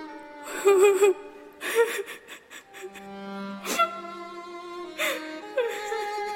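A little girl cries in whimpering, wavering sobs with tremulous pitch breaks and short gasps between bursts, rising and falling in uneven fits.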